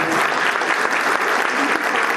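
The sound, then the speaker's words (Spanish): Loud, steady applause from an audience at an academic ceremony: dense clapping fills the whole clip without a break, and no single voice stands out. “Igual un fuerte aplauso para ellos”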